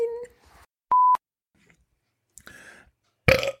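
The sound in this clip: A single electronic beep as a phone call is hung up: one short, steady mid-pitched tone, loud and clean, standing alone between quiet stretches.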